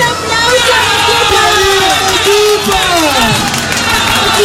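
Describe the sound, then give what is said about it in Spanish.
Loud crowd noise greets the newly crowned city queen at the Arequipa 2026 pageant: a steady, dense roar of cheering and hubbub that holds without a break. “Y el aplauso.”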